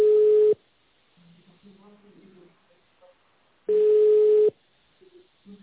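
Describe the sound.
A telephone line on hold while waiting for an operator gives two long, steady beeps a few seconds apart, and a faint voice speaks quietly in the gap between them.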